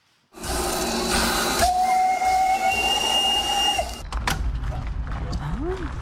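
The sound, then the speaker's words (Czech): A historic steam locomotive at a steam locomotive festival lets out a loud, steady hiss of steam, joined by a sustained high whistle tone lasting a couple of seconds. The whistle then stops, leaving a lower rumbling hiss. “Vzácné historické lokomotivy z Česka i ze zahraničí dorazily na 7. ročník festivalu parních lokomotiv v Benešově.”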